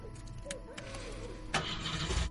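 A car engine starting: quiet clicks and a low hum give way to an abrupt surge into a louder, steady running engine partway through.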